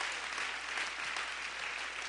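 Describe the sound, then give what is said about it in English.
Congregation clapping in church during an Easter service: dense, steady applause that holds at an even loudness throughout, with no voices over it. “Go ahead and give the Lord a clap offering on this wonderful glory.”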